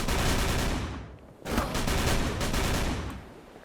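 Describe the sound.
Tommy gun fire in a video game shootout: long, loud bursts of continuous automatic fire, broken by one short pause before a second sustained burst that then tapers off.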